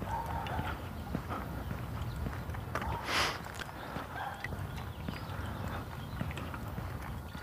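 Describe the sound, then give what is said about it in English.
Footsteps of a person walking outdoors in the sun, many crisp, faint steps in a steady rhythm. “There, now you see I'm walking in sun.”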